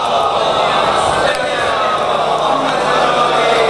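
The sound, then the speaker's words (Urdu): A crowd at a religious gathering chants a slogan in unison, a loud, dense and continuous wall of many voices with no pauses. “نہیں نہیں نعرہ لگانے دیں بھائی, اچھا لگ رہا ہے ان کا نعرہ.”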